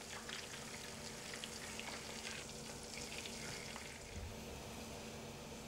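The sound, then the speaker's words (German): Soft, steady sizzling of lime and orange fillets frying in butter with lemon zest, a faint continuous crackle with no voices. “Limetten- und Orangenfilets braten mit etwas Zitronenabrieb in Butter.”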